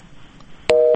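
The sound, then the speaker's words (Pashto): A telephone busy tone sounds after a caller's line drops: a single loud, steady two-pitch beep that starts suddenly near the end after a quiet, noisy stretch. “تماس از شنونده ما قطع شده.”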